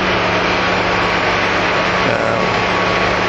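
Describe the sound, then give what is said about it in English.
Loud, constant engine rumble and road noise inside a moving bus, a dense, steady roar with no distinct events and no talking. “So now we're on the bus”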